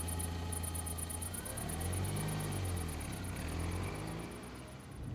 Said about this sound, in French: La Renault 5 démarre et s'enfonce dans la nuit en direction de Montpellier.